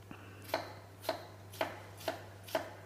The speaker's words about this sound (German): Dann schneiden wir die erstmal so in Streifen. Und dann so ein kleines Würfelchen hier.